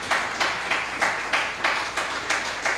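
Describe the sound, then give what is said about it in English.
Worship audience clapping their hands together in a steady, even rhythm, about nine sharp unison claps at a regular beat, fairly loud and with no talking over them. “Shall we clap our hands to Jesus?”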